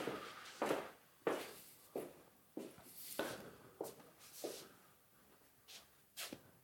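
Footsteps walking around inside an old, cold building that was once someone's home: a slow, fairly steady series of many soft, faint steps and scuffs.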